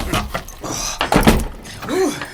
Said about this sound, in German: Ihr drei, ihr habt das Rätsel gelöst, also habt ihr es auch verdient, die Kiste zu öffnen. Oh, nichts lieber als das.